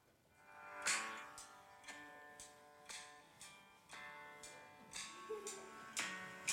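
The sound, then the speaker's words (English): A morning wake-up alarm plays a melodic chiming tone, with bright, ringing notes that repeat at a steady pace of roughly one per second and hold a clear, bell-like pitch throughout. “whenever I set my alarm in the morning, I set my alarm, and it sounds like this. Let's see if I can get it to go.”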